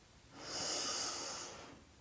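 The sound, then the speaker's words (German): A slow, deep inhale through the nose during a guided breathing exercise, a soft, airy hiss that swells and then fades over about a second and a half. It is quiet, and no one talks. “Und nun so ganz allmählich atme mal tief durch die Nase ein. Lass uns das zusammen machen.”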